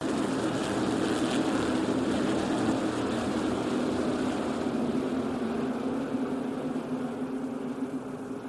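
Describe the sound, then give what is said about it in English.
Loud, steady engine roar from modified stock cars racing in a 1988 NASCAR modified tour race at Martinsville Speedway in Virginia. The dense, unbroken drone carries no talk and eases slightly toward the end. “We are at Martinsville Speedway in Virginia for NASCAR's wildest triple header of racing. Currently in the Winston 500 Classic, it's the NASCAR Winston Modified Tour.”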